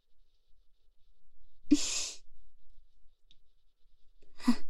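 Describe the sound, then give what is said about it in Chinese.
Deep breathing against someone's thigh: two breathy rushes of air, one near the middle and another at the end, each a soft, airy exhalation with quiet stillness between them and no talk. “干嘛在我的大腿上呼吸啊？很痒的”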